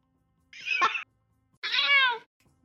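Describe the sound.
Two harsh, angry cat meows in close succession, the first short and strained, the second longer and more tonal, each loud and standing alone against silence.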